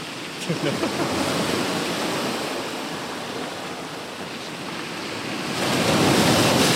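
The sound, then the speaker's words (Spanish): Sea waves washing over rocks: a steady, loud rushing wash of surf that surges stronger toward the end, with no voices. “Salen las olas por las piedras y tal.”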